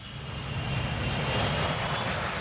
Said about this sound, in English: That's the sound of the Concorde, the plane that was famous for traveling faster than the speed of sound.